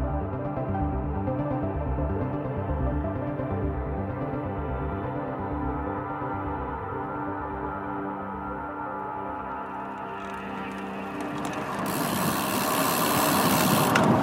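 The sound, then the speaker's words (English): A motorbike engine runs with a low, throbbing, harmonic-rich drone, holding steady before turning louder and rougher near the end. “Hey, Oscar, did you hear that? Yeah, this is my bike. Sounds amazing.”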